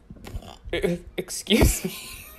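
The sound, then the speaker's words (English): A person burps once, a short low rumbling belch in the middle of casual talking. “I just like burped in a way where I thought I was going to perish.”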